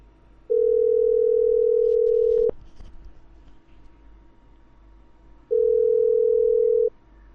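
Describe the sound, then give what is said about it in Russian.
Telephone ringback tone heard while placing a call: two long, steady single-pitched tones, the first about two seconds and the second a little shorter, separated by a quiet gap with faint handling noise. “Вот сейчас Виву звоним.”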